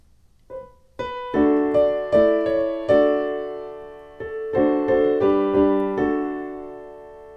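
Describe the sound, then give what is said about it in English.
A melody harmonized with modern tonal chords, played alone: a single note opens, then many struck chords follow in a steady, measured rhythm. Each chord rings and decays before the next, with a short pause midway. “Now if we were going to harmonize that with tonal harmony with modern chords, it might sound something like this.”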